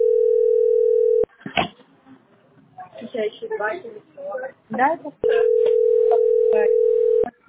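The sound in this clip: Telephone ringback tones on a call to a billing service centre: two long, loud, steady low tones, the second one longer, with a voice speaking in the gap between them.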